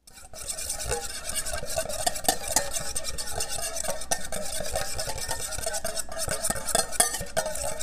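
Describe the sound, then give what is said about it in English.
A whisk works garlic anchovy paste, lemon juice substitute, Dijon mustard and Worcestershire sauce together for a Caesar dressing. Rapid, steady clinking and scraping runs continuously, with no talk. “So I have my garlic anchovy paste, lemon juice substitute, Dijon mustard, and Worcestershire sauce. I'm going to whisk.”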